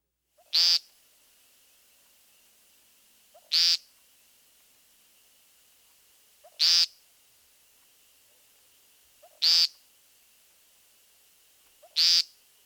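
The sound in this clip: An American woodcock gives five loud, nasal, buzzy peent calls, evenly spaced about three seconds apart, each one short and sharp and set alone against near silence.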